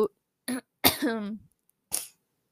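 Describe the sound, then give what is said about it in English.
Coughing from a person who has choked up: a few brief coughs separated by silent gaps, one of them drawn out and rasping with a voiced tone. “I'm sorry if I keep coughing.”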